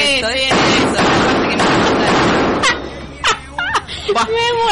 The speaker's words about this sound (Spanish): El tiro, José, vamos. Tiroteo total.